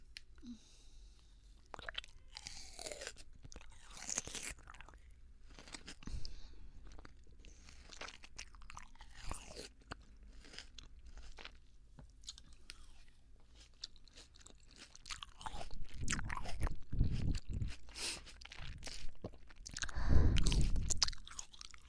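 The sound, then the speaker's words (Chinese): Someone chews dumplings: many soft, irregular wet crunching and squishing bites, faint throughout and growing louder and denser toward the end. “好嘛，尝一尝。我要跟老公一起吃啊，饺子。”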